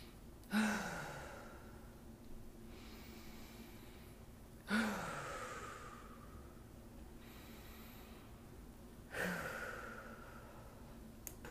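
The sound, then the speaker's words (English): Someone takes three deep, cleansing breaths during a guided breathing exercise. Each ends in a long, audible, breathy exhale that fades away. The three come at even intervals, with quiet breathing between them. “So let's do it now. Let's take some 3 deep breaths that are cleansing.”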